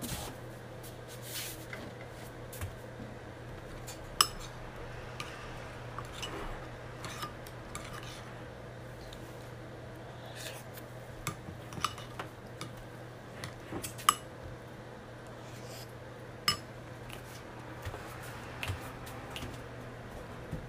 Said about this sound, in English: Oh wait, never mind, I have a spoon.